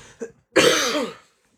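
A harsh, throaty cough from someone with a cold: one short faint sound, then a single loud, rough burst lasting over half a second that fades out, with silence after.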